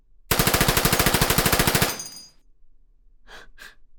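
Rapid automatic gunfire in a video game shooter: one long, loud burst of evenly spaced shots that trails off, followed by two short breathy gasps.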